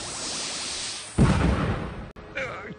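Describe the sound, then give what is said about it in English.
A power beam blasting from a monster's eyes and striking its target: a low hiss gives way to a loud, roaring burst of noise that sustains for about a second, then cuts out briefly before a wavering electronic tone. “Got to withstand those blasts!”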